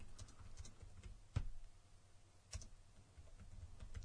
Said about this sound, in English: All right, type in On Top of You, Cannibal, the musical.